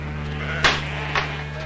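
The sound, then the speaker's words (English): Sheep bleating as they run wildly out of a ranch corral: two short, bright bleats about half a second apart over a steady low hum. “Outside, the sheep run wildly out of the corral.”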